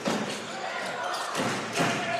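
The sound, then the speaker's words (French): A basketball dribbled during a game, a few dull bouncing thuds on the court under a commentator's voice. “Petite fin de shoot, petit départ en dribble pour aller chercher les bras, à l'expérience.”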